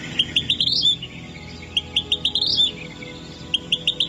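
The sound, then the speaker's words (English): Bird song from a mostly red bird with a black eye stripe, dark gray wings and tail: rapid, high, thin chirps in three short bursts, alone with no voices. “Oh, the bird they thought they'd seen? Well, it sounds like this.”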